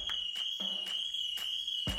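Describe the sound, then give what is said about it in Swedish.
A burglar alarm sounds with a steady, piercing high tone, broken by repeated sharp pulsing beats at a fairly even rate. It stays loud and constant throughout, with no voices. “No pun intended där med falskt alarm. Det blev ett annat alarm istället. Nämligen inbrottslarmet.”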